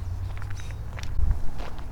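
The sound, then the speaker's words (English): Footsteps walk outdoors at dusk through an area with scattered trees, a few soft, muffled treads landing over a low steady background rumble. “As I'm walking through here”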